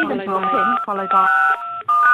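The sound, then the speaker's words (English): Telephone keypad tones entering a PIN for a phone conference: a few steady, clipped beeping tones in quick succession, overlapping a voice. “Welcome to the phone conference. Enter your PIN, followed by”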